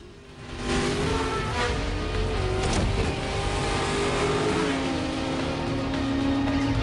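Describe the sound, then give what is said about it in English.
Engine roar of a racing car weaving through traffic, a loud, steady drone that swells in after a brief quieter start and holds throughout, its pitch wavering slightly. “Ford, in his racing car, pursued by Trey on his bike, weaves through traffic.”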